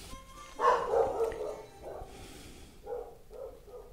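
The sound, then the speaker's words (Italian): A dog barks several times in short, uneven bursts, fairly faint over a low background hiss. “il cane che abbaia”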